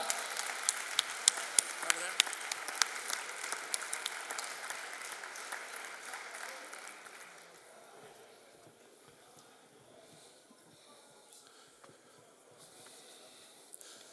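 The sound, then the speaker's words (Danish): Applause welcomes a guest onto the stage at a live event in Aalborg: lively clapping with sharp individual claps, fading after the midpoint into a quiet, low background. “Giv lige John en stor hånd, han kommer her.”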